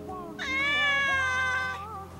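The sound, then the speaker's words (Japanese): A large Persian cat with pale brown fur and white paws gives one long, drawn-out meow with a strong, bright harmonic tone that swells and then fades, over a low background hum. “大きなペルシャ猫が吹っ飛んできて、カレンの足元に体をすり寄せた。”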